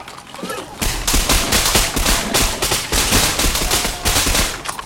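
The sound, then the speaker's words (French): A volley of rifle gunfire from a street barricade, many loud shots fired at once and overlapping into a dense, continuous crackling roar that holds steady to the end. “Toute la barricade fit feu.”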